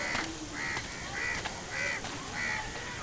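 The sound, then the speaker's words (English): Harsh cawing calls from birds circling in the sky above Mumbai in the October heat, repeated at an even, steady rhythm and fairly faint against a hissy background. “Circling around like omens in the sky. The birds? Yes, the birds.”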